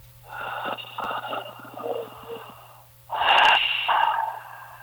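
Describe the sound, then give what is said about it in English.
A person draws a deep, calming breath as a relaxation demonstration, heard as two long breathy passes with a faint wheezy edge. The second is louder and stronger, and no one speaks. “I say, take a deep breath. And I go,”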